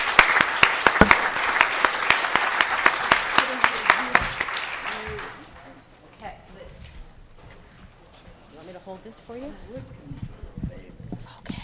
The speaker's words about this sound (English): So let's just give a little round of applause for